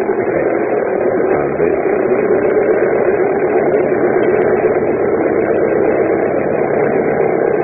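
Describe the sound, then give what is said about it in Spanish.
A small plane engine roaring as the aircraft takes off: a loud, continuous, dense droning noise that stays steady throughout, with no voices. “la pequeña avioneta levantó el vuelo rápidamente”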